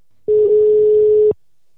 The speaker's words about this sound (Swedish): Då är det dags att ringa upp eh, Isabella